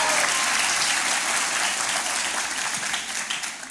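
Applause from a church audience at Calvary, thick and steady, giving praise to Jesus at the end of worship. Many hands clap at once with a faint crowd murmur, easing slightly at the very end.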